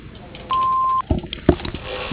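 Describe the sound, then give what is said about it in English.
An answering machine gives a single steady mid-pitched beep lasting about half a second. It is followed by a couple of soft clunks and faint background noise. “Hello, we are not available now. Please leave your name and phone number after the beep. We will return your call.”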